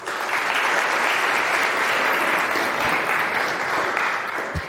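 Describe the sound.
An audience applauds to welcome a conference speaker giving a talk on Kotlin microservices, a dense, steady clapping that holds strong for several seconds before tapering slightly at the end.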